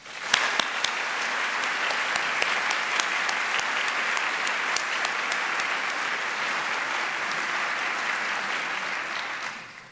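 Applause from an audience welcoming guests at a Cornell event: dense, steady clapping rises at once, holds evenly for about nine seconds with a few sharp individual claps standing out, then tapers off at the end.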